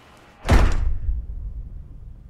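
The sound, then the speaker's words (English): A door is closed with a single sharp, heavy slam. A low rumbling decay lingers for over a second afterward, with no voices. “Kathy closes the door, her bright smile melting into a menacing scowl”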